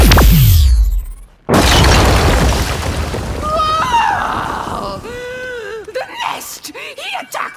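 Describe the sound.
A sci-fi disintegrator gun blast destroys a roof ventilation turret: a sharp burst with a falling sweep, a brief break, then a long loud roaring rush threaded with warbling electronic tones, ending in a few chirping, bending synthetic whistles.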